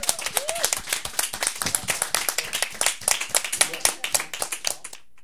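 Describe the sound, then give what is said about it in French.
Applause from a group during the closing show of a radio fundraiser's anniversary event: dense, many-handed clapping with an uneven rhythm, holding a steady level for about five seconds, then stopping abruptly. “Je pense qu'on s'applaudit pour une bonne dose d'énergie.”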